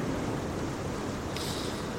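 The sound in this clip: Ocean waves as a sound effect: a continuous rushing surf wash with a broad, steady roar, and a brighter hiss that joins partway through and carries to the end.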